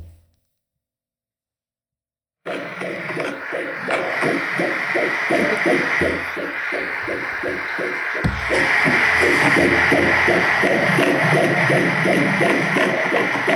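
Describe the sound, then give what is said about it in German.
Fetal heartbeat of an unborn baby at about 13 weeks, heard as rapid, rhythmic whooshing pulses over a steady hiss. The pulses start after a short silence and continue steadily to the end. “Aber das ist unser Baby. Denn das war der Herzschlag des Kindes”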